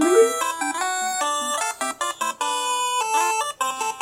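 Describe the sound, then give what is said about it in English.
Main battle theme music from the video game Final Fantasy II: a bright synthesized melody of quick, stepped notes over a driving accompaniment, playing alone with no talk. “I'm just sticking with the main battle theme that you would come across a monster in the woods. It's Final Fantasy 2.”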